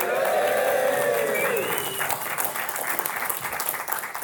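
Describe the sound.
Live studio audience applauding at the Financial Wellbeing Conference 2019 in North Bristol, beneath Concorde's wings. Steady, dense clapping holds throughout, with a brief voice calling out over the opening.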